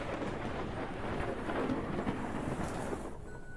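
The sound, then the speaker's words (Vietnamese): Loud, sustained rolling thunder with a hiss of rain beneath it. The deep rumble swells through the middle and eases slightly near the end. “Trên bầu trời cũng vang lên một tiếng sấm sét đến rợn người.”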